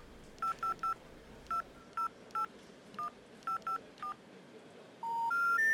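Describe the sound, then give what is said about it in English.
A touch-tone phone number is dialed as ten short beeps in uneven groups. Three rising tones follow, signaling that the number is not in service. “I'm gonna call back.”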